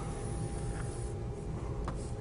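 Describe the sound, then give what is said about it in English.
Faint, steady scratchy strokes of lines being drawn on a board during a maths lecture, with a couple of slightly sharper strokes standing out briefly against the continuous rasp. “So when I start drawing lines”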